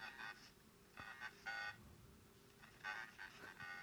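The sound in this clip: A faint, tinny answering-machine voice message opens a song, heard as a few short bursts of telephone-filtered speech separated by quiet pauses.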